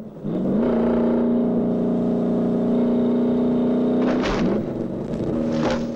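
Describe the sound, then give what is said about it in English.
Sedan engine droning as the car drives fast down a long hill, swerving periodically, a sustained, steady engine note that breaks briefly near the end with short noisy bursts before resuming. “The sedan is now piling down a long hill, swerving periodically to avoid joining traffic.”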